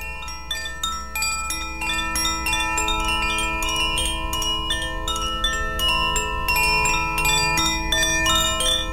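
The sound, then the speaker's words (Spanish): Chimes from a small cradle bell, a French instrument modeled on an African one and part of a four-element set, ring in many bright, quick strikes that overlap into a sustained, shimmering metallic tone, steady in loudness throughout. “Yo poseo cuatro, que son de los cuatro elementos, pero existen como otros cuatro más. Son un instrumento francés, pero es una representación de un instrumento africano. Y básicamente es una campanita de cuna, que suena algo así.”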